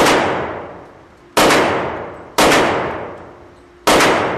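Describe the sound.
An AR-15 rifle fires four loud, sharp shots at a shooting range, spaced about a second apart, each followed by a long ringing decay.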